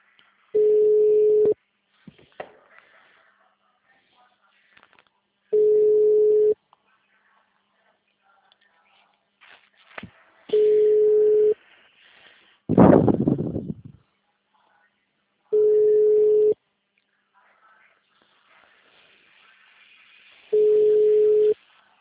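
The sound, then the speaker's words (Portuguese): Ringback tone of a telephone call that goes unanswered: five long, steady beeps evenly spaced by silences of several seconds, with a brief rustling noise midway. “Ninguém tá me atendendo.”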